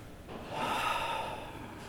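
One big breath is drawn in, a long, airy inhale that swells quickly, holds, then eases off. It is faint and heard alone.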